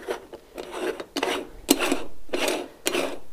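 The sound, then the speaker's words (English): Gritty rasping and rubbing of the top section of an Italian-style stovetop coffee pot being screwed tightly onto its base, heard as several scraping bursts in an uneven back-and-forth rhythm. “And that kind of helps funnel the coffee into the filter without getting coffee all over the place. And then basically you want to take the top part and screw it on the top.”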